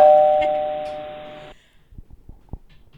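Doorbell chime at a front door sounds as one loud sustained ding-dong tone that decays for about a second and a half, then cuts off and leaves a few faint scattered clicks.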